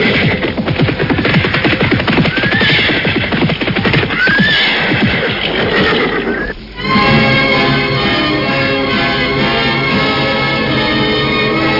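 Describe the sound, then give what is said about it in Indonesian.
A group of horses with riders approaches, loud continuous hoofbeats clip-clopping under repeated high whinnies and neighs, with a short dip in sound before the dense trampling resumes. “mendadak saat itu nampak rombongan orang-orang berkuda mendekat.”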